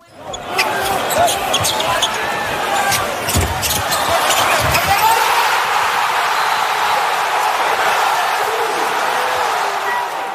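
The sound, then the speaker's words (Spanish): Loud arena crowd roar at the winning basket of a Knicks basketball game at Madison Square Garden, a dense, sustained wall of cheering and shouting that holds steady throughout. “Ese era el sonido del Madison Square Garden en el momento en el que OG Anunoby anotaba la canasta ganadora para los Knicks”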